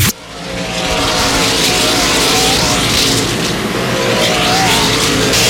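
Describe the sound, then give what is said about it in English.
Race cars roar around an Indianapolis raceway during a race. After a brief dip at the start, the loud, continuous engine snarl swells and then holds steady, with a revving whine layered over the deep rumble. “With you at Lucas Oil Indianapolis Raceway Park, where the race leader Lane Riggs has just completed the 40th lap of this event.”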